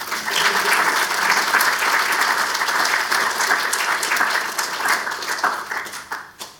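Loud, sustained audience applause welcomes Jack Waterford AM as the 2021 Canberra orator. Many hands clap in a dense, steady roar that holds for several seconds, then thins and fades near the end.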